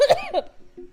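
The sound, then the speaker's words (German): A short, raspy human cough from someone with a painful chest cough, a couple of quick throaty bursts lasting under half a second, followed by near silence. “Oh, das Husten tut nämlich auch richtig in der Lunge weh.”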